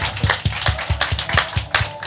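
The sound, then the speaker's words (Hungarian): Clapping from the audience at a Strand Festival fan meeting: sharp claps in a steady, even beat, about four or five per second, moderately loud, with no talking. “és most hagyom a taps effektet, és kérlek, hogy ti mutassátok meg, mennyire örültök a mai beszélgető partnereimnek.”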